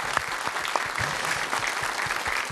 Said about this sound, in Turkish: Alkışlar biraz da ona olsun.